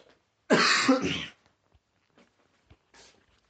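A person clears their throat once, with a harsh, forceful rasp as if something is stuck in it, followed by a few faint small sounds.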